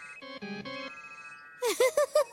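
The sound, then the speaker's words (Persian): A mobile phone ringtone plays for an incoming call: a few stepped electronic notes, then a held tone, then a run of short, bright pulsing bursts, fairly loud with no talk. “خب زنگ زده بگوشیم، من باید خیلی طبیعی جوابش رو بدم.”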